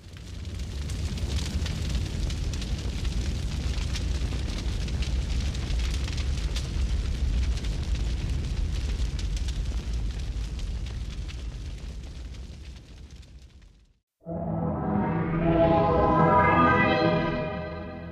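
Fire tearing through a beauty salon: a dense, steady roar that holds loud for about thirteen seconds, then cuts off sharply and gives way to a brief, different tonal sound.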